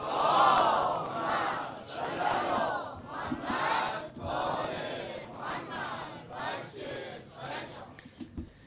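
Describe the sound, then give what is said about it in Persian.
A crowd chants salawat, blessings on the Prophet Muhammad, in unison. The voices rise and fall in a series of rhythmic phrases, loudest at the start and thinning toward the end. “این صلوات هم یکی از اوناست دوستان.”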